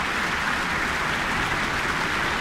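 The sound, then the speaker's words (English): Warm, steady applause from a concert audience for the New Zealand Symphony Orchestra in the Michael Fowler Centre after a Verdi overture, an even wash of many hands clapping that holds without a break. “Asking the entire orchestra to stand for warm applause in the Michael Fowler Centre.”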